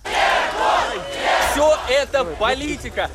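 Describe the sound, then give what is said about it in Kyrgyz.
A crowd gathered outside a courthouse chants a man's name in support, shouting in loud, rhythmic bursts of many voices together. The chant breaks into shorter, separate repeated calls toward the end. “Шарттуу кесилген Жуков сот имаратынан чыкканда топтолгон адамдар бир кыйлага анын атын атап кыйкырып колдоп турушту.”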